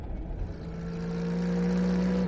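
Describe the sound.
A car engine speeding down a steep hill gives a steady, droning hum that swells slightly louder over a couple of seconds and then cuts off abruptly.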